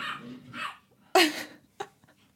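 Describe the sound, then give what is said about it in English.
Dogs barking outside while fighting each other: a few short, fairly faint bark bursts, the loudest sharp yelp landing midway, followed by a quicker, smaller bark and brief whimpering traces. “oh dear, dogs are murdering each other out there.”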